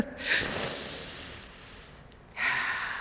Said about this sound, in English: And when we remember to breathe, let's breathe.